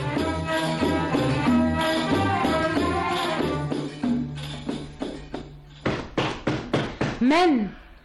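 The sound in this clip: Knocking on a door: after a stretch of voices, a few sharp, evenly spaced raps ring out, with a voice rising at the end.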